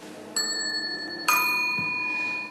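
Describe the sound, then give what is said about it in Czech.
Ding-dong bicycle bell rung twice, each strike leaving a bright, sustained metallic ring that lingers and fades slowly, with the second strike slightly louder than the first. “A pak podle zvuku také zvonek, který se nazval ding-dong. Můžeme jednou, ding-dong.”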